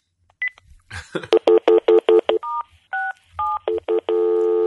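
Telephone keypad tones as a made-up phone number is dialed: a quick run of many short beeps at varying pitches, ending in a longer steady tone.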